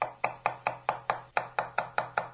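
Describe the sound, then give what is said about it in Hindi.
A knife chops on a kitchen cutting board: eleven crisp, woody knocks in a steady, evenly spaced rhythm, each striking sharply and then decaying quickly, with no voices. “ऐसा लग रहा है ना जैसे कोई रसोई घर में कटिंग बोर्ड पर कुछ काट रहा है।”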